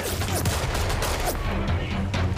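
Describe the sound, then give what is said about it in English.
Gunfire at a slum crime scene linked to possible gang activity: many rapid, sharp cracks pile up over a dense, noisy background without a break. “Shots fired.”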